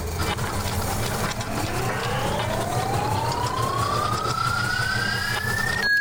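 Spinning sound effect of a random number generator in a question game: a tone sweeping steadily upward in pitch over several seconds above a constant noisy bed, ending abruptly.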